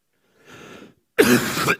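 A person clears their throat and coughs: a soft, low rasp, then after a short pause a louder, harsher burst with a rough guttural edge.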